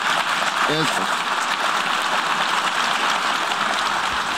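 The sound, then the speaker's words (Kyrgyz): Diplomats in the UN General Assembly hall applauding after a vote result is announced: prolonged, dense clapping from a large crowd, hissing like steady rain, with a brief voice cutting in near the start. “Добуш берүүнүн жыйынтыгы жарыяланганда залдагы дипломаттар бир топко чейин кол чаап турушту.”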